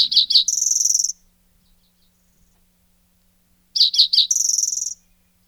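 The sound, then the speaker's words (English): Spotted towhee song: two phrases separated by a pause of a few seconds, each with three short, sharp introductory notes followed by a loud, buzzy, high trill. “Next up, we have the spotted towhee.”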